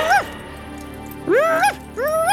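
A dog whimpering in three high, tonal whines, each rising and then falling in pitch, with a short first whine and two longer ones after a pause.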